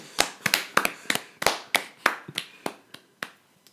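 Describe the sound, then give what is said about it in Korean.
Hand clapping: many sharp, crisp claps in a steady, fairly quick rhythm, each one distinct and bright, with no voices. “박수.”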